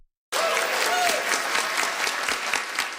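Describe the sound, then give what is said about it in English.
Applause at the Inuit Circumpolar Council General Gathering as a new declaration is approved. After a moment of silence the clapping starts abruptly, then continues as a dense, steady roar of many hands. “The Inuit Circumpolar Council's new declaration got a round of applause as it was approved.”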